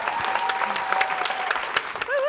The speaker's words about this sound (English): Give her a big round of applause.